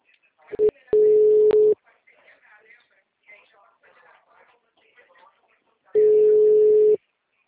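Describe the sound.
A ringback tone sounds on an outgoing telephone call. A short blip comes first, then two steady, mid-pitched tones of about a second each, spaced a few seconds apart. Faint talk is heard in the gap between them.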